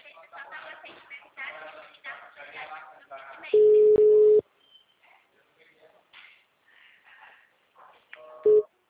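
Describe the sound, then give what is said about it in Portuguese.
A telephone line tone sounds as a number is dialed, one long steady beep and later a short one, with muffled talk around them. “Deixa eu ligar pra Dona Nilzete.”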